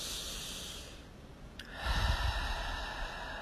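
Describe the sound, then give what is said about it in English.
A deep breath is taken during a guided meditation, a soft, airy whoosh that swells about halfway through and then holds steady. “Taking a deep breath.”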